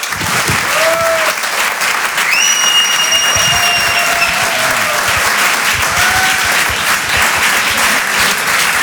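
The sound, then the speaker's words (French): Audience applause at a comedy club, dense and continuous for the whole stretch, with a few high whistles cutting above the clapping. “Faites du bruit, s'il vous plaît, pour Jean-Benoît Diallo.”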